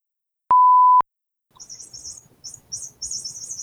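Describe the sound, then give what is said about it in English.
A chirping cat toy: one steady electronic beep, then rapid, high, bird-like chirps in short repeated bursts. “Does anyone else hear chirping? Yeah, I'm here. Oh, yeah, that's a cat toy.”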